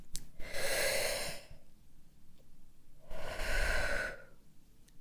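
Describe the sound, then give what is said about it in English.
A slow, deep breath: two long, airy bursts of breathing about two seconds apart, each lasting roughly a second, soft and unhurried with no voice. “Now, let's take a deep breath together.”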